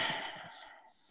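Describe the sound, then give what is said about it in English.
A person takes one deep breath, a soft airy rush that is strongest at the start and fades away over about a second. No other sounds accompany it. “I put my hand on my heart and I breathe in”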